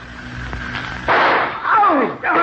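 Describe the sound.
One gunshot in a radio drama cracks out sharply and loudly, and people talk right after it.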